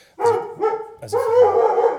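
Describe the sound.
Dog barking in a backyard where dog fights are held: a few loud, rough barks, the last one drawn out into a long, wavering growl-like cry.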